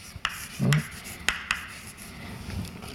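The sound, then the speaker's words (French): Writing on a board during a seminar lecture: a few short, faint scratchy strokes and light taps, with soft rubbing between them and no talking. “Donc je vais écrire ça.”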